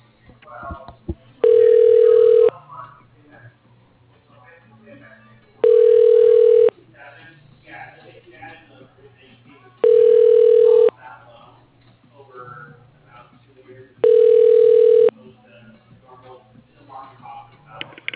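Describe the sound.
Ringback tone while a telephone call is transferred: four steady mid-pitched tones about one second each, repeating roughly every four seconds, with faint voices and a low hum between them.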